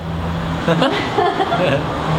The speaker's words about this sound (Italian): ciao, mamma mia, quante macchine, altro che quarantena.